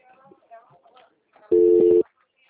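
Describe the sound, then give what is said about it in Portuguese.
An outgoing video call rings on a phone: one steady, mid-pitched electronic tone lasting about half a second, following a short stretch of quiet talk. “Pera aí que eu vou ligar pra você. Por vídeo.”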